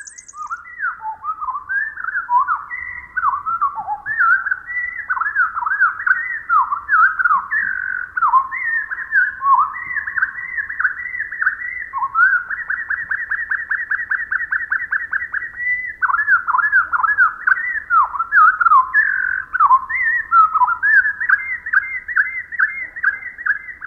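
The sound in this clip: Winter wren song slowed to quarter speed, heard alone as a long, loud run of many whistled notes. The notes slide and warble in quick sequence, with a stretch of rapid repeated trills in the middle.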